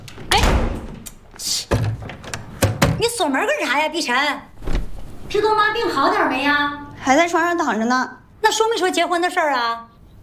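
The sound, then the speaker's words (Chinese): Door-locking thuds and clunks strike a few times early on, followed by people talking in Mandarin. “你说这锁门干啥？”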